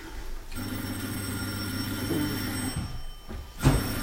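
A doorbell rings at the front door: a sustained, shrill electric ringing that carries through almost the whole clip over a low rumbling background, briefly breaking off near the end.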